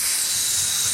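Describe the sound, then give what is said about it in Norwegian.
Meat sizzles on a charcoal grill, a steady, bright hiss that holds evenly for the whole second with no talking. “Det er lyden av en god kottebøff på en kølgrill.”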